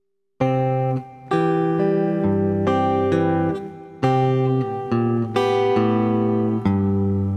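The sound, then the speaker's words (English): An acoustic guitar fingerpicks two measures of a C chord as an arpeggio, with clear, ringing single notes plucked one after another in an even rhythm, each sustaining into the next, played alone. “Then we have two measures of C that sound like this.”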